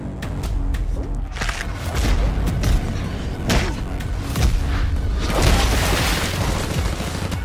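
Gunfire in an action movie trailer about a hijacked airliner, with many booming shots and impacts layered into a loud, continuous mix of effects and score.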